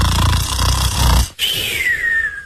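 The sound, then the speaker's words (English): A voice imitates snoring for someone who dozed off during a dull business presentation: a low, rasping snore of over a second, then a brief break and a thin whistling exhale that slides steadily downward in pitch. “You were snoring. To snore is to make a noise like this.”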